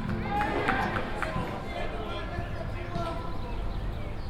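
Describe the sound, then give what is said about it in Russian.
Football being kicked during a match in a Stockholm stadium: a few dull thuds of the ball over quick running footsteps, with crowd noise and voices throughout. “на этой записи, которую мы сейчас слышим, не Саранск, а Стокгольм, и не 2018, а 2011, но удар по мячу звучит одинаково”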